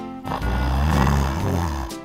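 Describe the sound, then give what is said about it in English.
Snoring from a big sleeping lion: one long, loud, low rumbling snore with a steady droning tone, lasting nearly two seconds before it stops. “He snored.”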